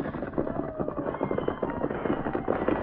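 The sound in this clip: Galloping hooves of the horses Silver and Scout beat out a rapid, steady rhythm of many loud thuds that run without pause for the whole clip.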